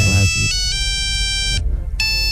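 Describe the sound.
A melody ringtone plays from an old Siemens mobile phone, a few sustained electronic notes stepping between pitches, loud and clear, with a short gap before the last note.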